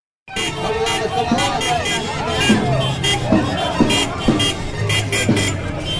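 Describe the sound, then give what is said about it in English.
Car horns honk from a line of cars coming round a corner on a town street during an election rally, with a few sustained honks over a steady hubbub of crowd noise and voices. “this line of cars comes around the corner. Honking. Endless honking.”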